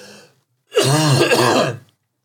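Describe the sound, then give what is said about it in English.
A man clears his throat hard with a piece of candy stuck in it, a short faint rasp followed by a loud, voiced, gravelly rumble of about a second that cuts off abruptly. “Piece of candy stuck in my throat. Great timing.”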